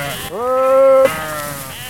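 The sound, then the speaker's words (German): A single loud, drawn-out bleat from a sheep in a flock of nearly 1,200 standing in knee-high grass on a meadow near Magdeburg. The bleat rises briefly at its start, then holds a steady pitch before cutting off into quieter background sound. “Mitten auf einer Wiese in der Region Magdeburg stehen knapp 1200 Schafe im kniehohen Gras.”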